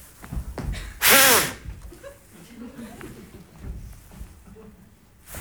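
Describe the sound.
A single forceful breath blown into a police breathalyzer at a roadside checkpoint makes one loud, airy burst lasting under half a second, with people talking before and after it.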